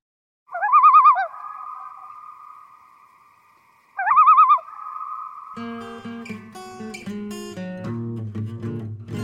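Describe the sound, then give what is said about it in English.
Two warbling loon calls, each trailing into a long held wailing tone, followed by plucked guitar notes that enter partway through and continue to the end alongside the fading call. “Right there, the loons, the crazy loons. One time I played guitar and I added it to it on Boss Jock. I did them both on there, made a short little clip and kept it.”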